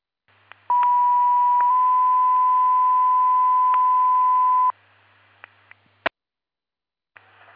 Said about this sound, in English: Please disregard the tones and reset your pagers.